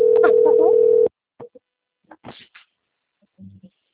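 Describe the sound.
A telephone rings with an incoming call: a loud, steady tone with warbling sounds layered over it lasts about a second, then stops. A few brief, faint voice sounds follow.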